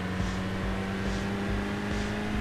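A car accelerates, its engine giving a steady, loud drone with a low hum and regular pulsing swells throughout, with no talk over it.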